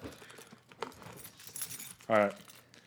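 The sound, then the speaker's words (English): Metal keys jangle as they are handled, giving one brief, loud, ringing rattle near the end over faint voices and low background noise. “I got the key. Here's the key. Hey, look at the key.”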